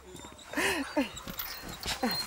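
Whimpering from a dog named Nanook held on a leash: a few short, high, nasal whines with gaps between them, moderately loud.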